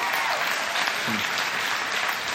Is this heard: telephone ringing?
no